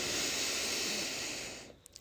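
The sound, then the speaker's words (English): A big, deep inhale draws through the nose during a breathing exercise. One long, airy hiss holds for about a second and a half, then fades, and a couple of faint clicks follow. “Big inhale, big exhale. We're going to do that again. Inhale,”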